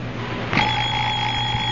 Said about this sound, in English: I'll murder that alarm clock. Oh, it's a wonderful alarm clock. Big Ben never forgets to get you up.